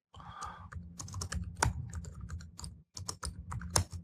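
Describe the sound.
Typing on a computer keyboard while writing a code file: rapid, irregular clicks of many keystrokes in a dense run, with one brief pause before the tapping resumes.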